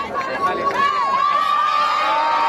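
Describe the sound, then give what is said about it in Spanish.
A crowd cheers and applauds outdoors at a papal visit as the popemobile comes out, a dense, continuous roar of voices with shrill whistles and shouts rising through it. “Mucha alegría, vítores a León XIV, aplausos, mucha emoción.”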